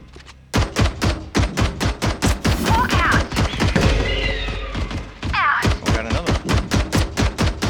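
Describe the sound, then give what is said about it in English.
Rapid gunfire in a shooting video game, aimed at a toilet-paper spot. Many loud, evenly spaced shots come in sustained bursts, with a brief stretch of rumbling noise near the middle. “They're shooting into the TP.”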